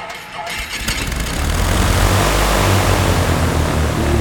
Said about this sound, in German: Man hört die Motoren brummen und es wackelt auch mal zwischendurch. Wenn ihr wollt, schmeiß ich den Motor kurz mal für euch an.